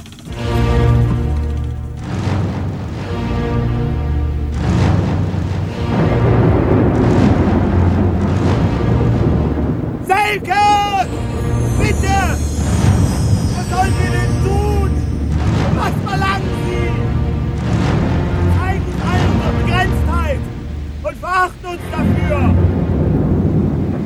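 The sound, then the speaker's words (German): Radio drama storm effect of rumbling thunder: a heavy, continuous low roar with swelling bursts runs throughout, with voices heard over it. “Es kommt Sturm auf! Wir müssen uns vorbereiten!”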